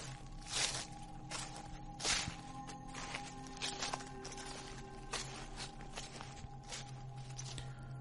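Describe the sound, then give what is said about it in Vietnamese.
Footsteps rustle and crunch over rotting branches and dead leaves in a slow, irregular series of soft, brushy steps. The sound is quiet throughout, with a faint steady drone beneath it. “thì ở bên ngoài có tiếng bước chân dẫm lên cành lá mục loạt xoạt vang lên.”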